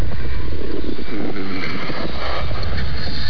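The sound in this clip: A car drives a lap with a steady, loud, muffled rumble of engine and road noise throughout, with no distinct separate events.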